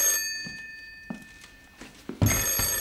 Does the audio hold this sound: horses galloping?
no

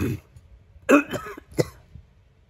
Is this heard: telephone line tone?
no

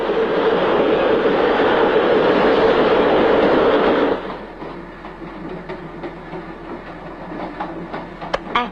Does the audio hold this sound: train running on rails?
yes

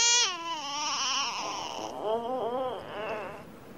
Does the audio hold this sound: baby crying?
yes

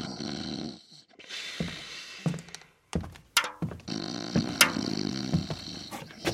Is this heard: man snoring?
yes

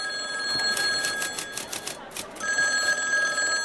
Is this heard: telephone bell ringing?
yes

